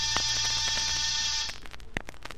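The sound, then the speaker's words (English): An apartment door buzzer sounds in one harsh, continuous electric buzz for about a second and a half, then cuts off abruptly, leaving only faint background noise. “I rang one buzzer.”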